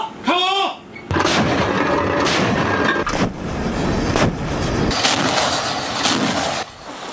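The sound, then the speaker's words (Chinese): A warship's main gun fires at a floating target during a night close-range counter-attack drill at sea. Several heavy, booming blasts ring out at spaced intervals over a continuous loud roar. “赣州舰主炮阵位牢牢锁定目标，看到敌舰率先开火后，立即对其实施反击。”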